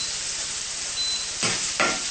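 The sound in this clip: Pine nuts and shredded tofu sizzle in a frying pan with a steady, hissing crackle. Near the end, two louder scraping stir strokes cut through.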